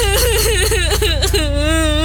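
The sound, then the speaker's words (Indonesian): Someone crying hard, a loud, continuous wailing sob whose pitch wavers and quavers up and down, breaking briefly before resuming in a long drawn-out whine. “kok makin kenceng sih nangisnya?”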